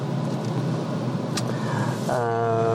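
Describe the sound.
A car driving past a detention centre, its steady road and engine rumble running evenly throughout, with one brief sharp noise partway through.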